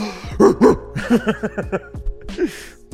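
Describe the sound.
A human voice imitates a dog barking: a quick string of many sharp, yelping barks, each dropping in pitch, uneven in loudness and tumbling over one another.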